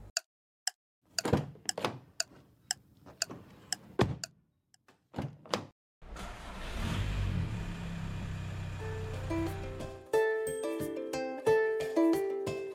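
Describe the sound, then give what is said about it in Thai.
A car drives away after several sharp door-like thunks and clicks, then a steady rumbling engine noise runs for a few seconds before clear tonal notes take over. “คุณพ่อพาน้องหมอนขึ้นรถขับออกไปเงียบๆตอนที่คุณแม่กำลังง่วนกับงานบ้านอยู่”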